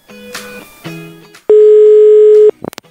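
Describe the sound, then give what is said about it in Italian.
Telephone ringback tone on an outgoing call: one loud, steady, low-pitched tone lasting about a second. Two shorter electronic tone bursts come before it, and a few brief clicks follow. “vediamo se ci risponde al telefono, lui non sa nulla, non sa che lo stiamo chiamando. Ecco, suona libero, suona libero”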